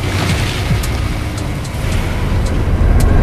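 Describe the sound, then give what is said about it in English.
Car pulling away in driving rain: a dense, steady hiss of heavy rain with a low engine rumble beneath it, continuous throughout with no voices. “They pull away in the driving rain.”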